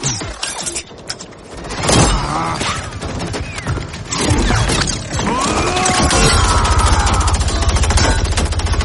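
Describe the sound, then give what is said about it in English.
Gunfire from a Mortal Kombat 11 video game scene where a character is shot in the face: loud shots and crashing impacts, then a long, rapid, rattling burst of fire through the second half. “That's that's from Mortal Kombat 11, which uh, introduced time travel to the series, and you've got young Johnny Cage and old Johnny Cage, and young Johnny Cage gets shot in the face”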